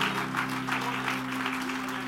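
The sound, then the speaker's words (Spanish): A church audience applauds the Lord at a Spanish-language Christmas celebration service: dense, continuous clapping at an even level, with a faint low electrical hum running beneath. “Si es para el Señor, délo con fuerza. Aplauda al Señor.”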